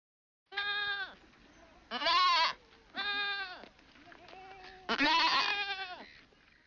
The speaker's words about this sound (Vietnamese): Thông thường trong tiếng Nhật, tiếng dê kêu được diễn tả bằng từ mê mê.